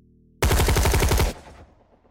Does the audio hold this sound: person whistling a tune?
no

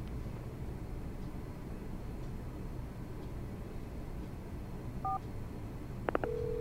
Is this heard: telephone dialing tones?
yes

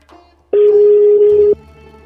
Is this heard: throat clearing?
no

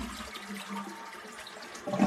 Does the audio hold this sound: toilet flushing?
yes

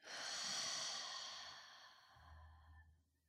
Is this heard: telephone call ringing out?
no

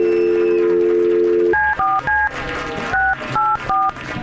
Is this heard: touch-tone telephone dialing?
yes

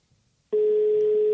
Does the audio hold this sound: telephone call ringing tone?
yes

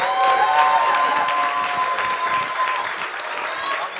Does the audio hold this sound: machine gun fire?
no

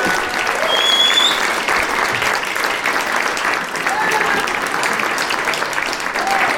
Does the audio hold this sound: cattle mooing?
no

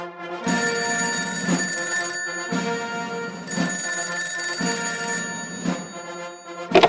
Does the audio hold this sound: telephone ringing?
yes

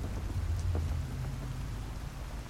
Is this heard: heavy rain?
yes

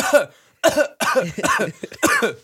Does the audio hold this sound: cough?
yes

